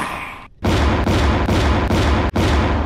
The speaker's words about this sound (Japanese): あんたキャノンを撃ってダメだよ。